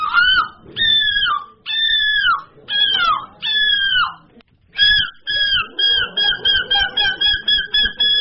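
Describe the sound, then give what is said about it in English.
Human voices imitate seagull calls at a seagull-imitation competition: a run of long, loud wailing cries, then a quick string of shorter, sharper yelping calls repeated in rapid rhythm. “So there was a competition of people imitating seagulls. Okay. Here's a little montage of several competitors with, I believe, who won the competition at the end. Okay. These are all people.”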